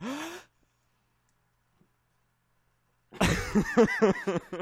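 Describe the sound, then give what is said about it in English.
A sharp, voiced intake of breath used as a mock cue for theme music: a short gasp with rising pitch, then a long silence before a man starts talking. “do your special intake of breath to signify the start of the podcast theme music.”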